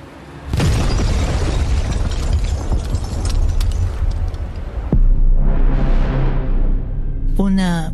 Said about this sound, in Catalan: ¿Vas fer explotar el taxi? Efectivament, compañero. Hòstia, noi. Sí, senyor, con una granada de fragmentación M67.